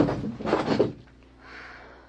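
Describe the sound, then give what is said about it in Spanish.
A drawer of a heavy chest of drawers is pulled open: a dull wooden scraping slide for about a second, then a fainter, softer rustle. “Hazte un lado para abrir ese cajón.”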